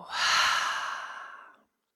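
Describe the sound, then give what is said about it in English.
A deep breath let out through an open mouth during a guided breathing exercise. A single airy sigh lasts about one and a half seconds, swelling quickly and then tapering to silence. “Let's all together take a huge breath in through the nose. Open the mouth, let it go.”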